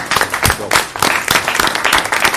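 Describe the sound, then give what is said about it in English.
An audience at a city council meeting applauds a longtime parks commission chairman, a loud, lively burst of many hands in which sharp individual claps stand out, keeping an uneven, busy rhythm throughout. “So how about a nice round of applause for Nick?”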